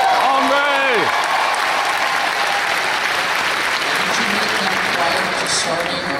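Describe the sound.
Audience applause, a dense, steady clapping that fills the whole clip, with a voice briefly heard near the start.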